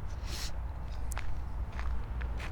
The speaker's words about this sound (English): I'm walking across the land bridge, looking into the billabong.